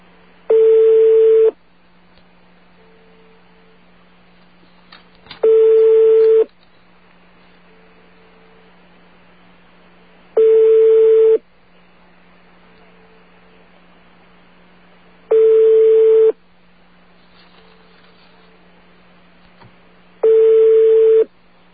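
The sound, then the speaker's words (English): A Yugoslavian telephone ringing: five long single rings, each about a second, evenly spaced roughly every five seconds. Each ring is a steady, mid-pitched buzzy tone, heard over a constant low hum, with near silence between rings. “What you're hearing now is a Yugoslavian ring. Of course, I didn't have to say that. It's pretty obvious it's a Yugoslavian ring.”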